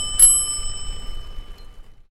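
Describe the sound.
A bicycle bell gives a single bright ring that lingers as a shimmering tone and slowly fades to silence.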